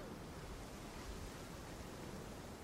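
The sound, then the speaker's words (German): Atlantic surf at Hossegor on the Bay of Biscay, where big breakers roll in: a steady, even wash of broad noise with no distinct crashes. It is soft and plays without voices. “Die Wellen sind hier noch höher als in Biarritz. Hier kommen die ganz großen Biscaya-Brecher rein.”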